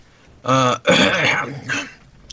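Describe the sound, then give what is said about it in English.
Someone clears their throat: a brief voiced hum, then a loud, rough rasp of air, and a shorter final rasp, with nothing else around it. “I gotta clear my throat.”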